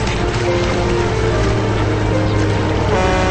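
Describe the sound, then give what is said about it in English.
Steady, low engine drone of a Coast Guard cutter and police boats moving on the water. The hum stays loud and even throughout, with a faint splashing hiss over it and no voices. “From an aerial view, a Coast Guard cutter approaches. Police boats circle the area.”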